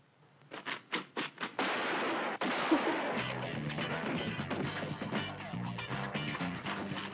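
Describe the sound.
Gunfire in a video game: a rapid burst of several sharp, loud shots in quick succession, followed by a sustained, dense layer of loud noise with tonal sounds running underneath.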